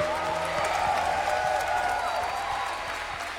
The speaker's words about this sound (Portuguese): Uma salva de palmas a Jesus.